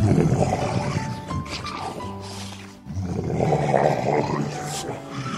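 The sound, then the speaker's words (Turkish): A lion roars in pain, deep and loud, in two long, rough, sustained bursts separated by a brief dip in the middle. “Aslan acıdan kükreyip yeri göğü inletmeye başlamış.”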